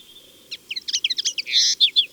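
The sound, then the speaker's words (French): A common linnet sings, perched atop a bush: a thin sustained whistle, then a rapid run of bright chirps and twittering notes over faint low background noise. “Voici une linotte mélodieuse.”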